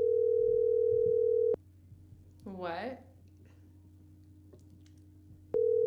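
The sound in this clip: Ringback tone of an unanswered telephone call: a steady, buzzing tone sounds twice, separated by a silent gap of about four seconds, with a brief, faint voice in between.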